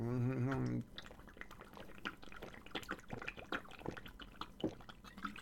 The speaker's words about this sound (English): There. That's the sound of health. Thank you, Marco Rubio, for telling us all to drink water.